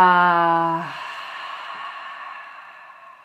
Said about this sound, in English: Deep breath in through the nose. Exhale out the mouth.